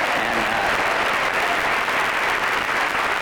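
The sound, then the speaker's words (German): Sustained, even applause from a large audience at a ceremony welcoming the wife of the US Joint Chiefs chairman during the Desert Storm period, a dense unbroken patter of clapping heard alone without talk. “Das ist Colin Powell, der das natürlich gern sieht, dass seine Frau auf diese Weise mit Beifall begleitet wird”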